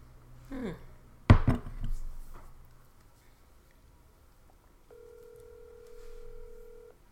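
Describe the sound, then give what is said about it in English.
A telephone call being placed: a short clatter of handling noise, then after a pause a steady electronic ringing tone holds for about two seconds, fairly faint throughout. “I'm going to call one more. I'm going to call the next one.”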